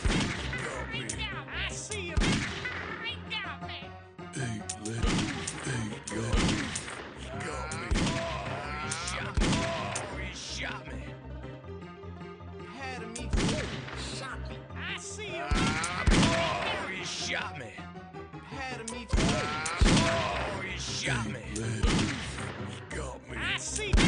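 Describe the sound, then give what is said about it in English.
Gunfire fills a video game firefight: many sharp shots and thuds crowd together in dense, busy bursts that keep going for the whole stretch, with heavier crashes mixed in. “Oh, he shot me.”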